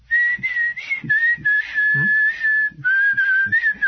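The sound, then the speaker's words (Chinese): A person whistles a tune in a clear, high melodic line that wavers up and down, breaking briefly near the end before resuming, with soft low thumps pulsing beneath it. “开始吹口哨”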